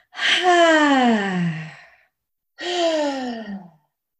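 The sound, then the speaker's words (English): A person takes deep breaths, letting out two voiced, sighing exhales that each slide downward in pitch, the first longer and the second shorter, fairly loud with no talk. “And take another breath.”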